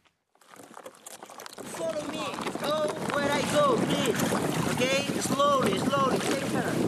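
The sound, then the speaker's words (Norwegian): Kayak paddling with tourists among large icebergs off western Greenland: soft watery splashing and rustling under wind noise that swells after a quiet start, with people talking over it. “Vi padler kajakk sammen med turister mellom store isfjell på vestsiden av Grønland.”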